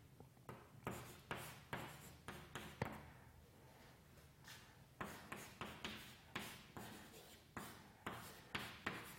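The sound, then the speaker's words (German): Writing strokes being made during a mathematics lecture: a quiet, rapid series of many short scratchy rasps with brief pauses between bursts, heard alone. “Ja, also jetzt schreibe ich da auch einen Strich.”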